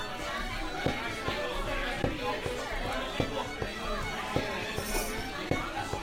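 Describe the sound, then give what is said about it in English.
Restaurant crowd ambience in a video game: a steady murmur of chatter with regular footstep-like thumps, and a voice speaking over it. “Now if we do that, we hear this. Space. This is the main restaurant. You can collect the guest food orders here.”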